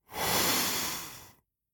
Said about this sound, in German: Nadi Shodhana ist Sanskrit und bedeutet Wechselatmung. Also, man atmet mit einem Nasenloch ein